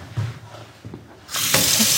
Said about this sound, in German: Jetzt müssten wir uns tatsächlich die Hände einmal waschen.